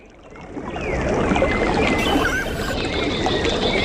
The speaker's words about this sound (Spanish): Y a veces es también el sonido cuando lleva agua de los riachuelos que atraviesan parte de los pueblos de la Alpujarra almeriense.